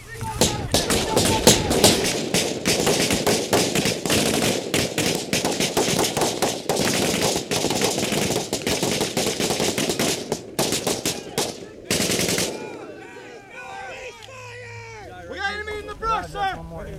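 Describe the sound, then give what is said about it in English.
Rapid gunfire during combat fills about twelve seconds with many dense, loud cracking shots in bursts. Shouting voices mix in, and talk continues after the shooting stops. “I shot him in the face a couple times.”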